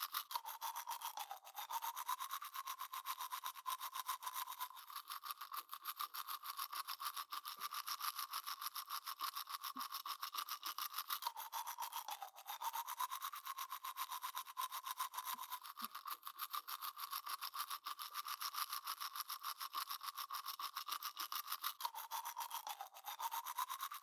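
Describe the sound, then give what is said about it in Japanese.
Teeth are polished until they shine with continuous rapid scrubbing strokes, a faint, steady rasping rub broken by a few brief dips. “あとは光を反射するくらいまで歯を磨いてまいります。”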